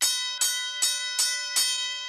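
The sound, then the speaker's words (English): Five evenly spaced strikes of a bell ring out, readied alongside a buzzer for a game-style scoring of predictions. Each strike is bright and clear, with sustained ringing overtones that carry into the next strike. “So I've got my buzzer and the bell”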